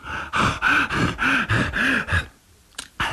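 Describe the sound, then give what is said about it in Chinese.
A voice imitates heavy panting of a man catching his breath after a beating: a rapid run of about six loud, rasping pants, then a short pause and a couple of quick breaths. “打得太疼了，他光顾了喘气”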